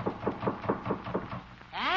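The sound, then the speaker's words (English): Gentle knocking on a rickety door that is almost off its hinges: a steady series of light, evenly spaced raps. The knocking stops and a voice follows at the end. “Look at this door. Almost off the hinges. Better knock easy.”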